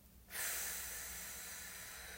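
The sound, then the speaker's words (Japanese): A long, slow breath during a guided breathing exercise: after a brief quiet start, one steady, airy rush of breath sets in and holds evenly to the end, with no voices. “笑顔でゆっくり吸いますたっぷり深く吸って笑顔で吐きます”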